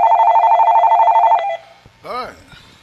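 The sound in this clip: A telephone rings for an incoming caller: a loud, rapid warbling ring held for about a second and a half, then cut off, followed by a short voice.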